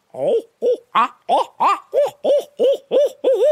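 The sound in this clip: A human voice imitates owl hoots to call and excite wild turkeys: ten loud, throaty, rounded hoots in a steady, evenly spaced rhythm, each a short swooping note.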